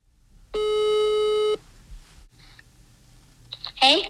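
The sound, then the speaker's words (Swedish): A telephone ringing tone sounds while a call is placed: one steady buzzing tone lasting about a second, then quiet clicks and a brief voice at the end. “Så nu ska vi ringa...”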